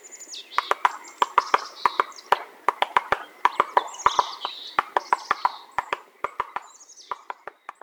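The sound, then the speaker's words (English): A black-backed woodpecker hammers a tree trunk while digging for beetle larvae: many sharp, dry knocks in uneven bursts, with a few high chirps between them. “Here's the sound of a black-backed woodpecker whacking away on a tree, digging for beetle larvae while gripping the trunk with its little 3-toed feet.”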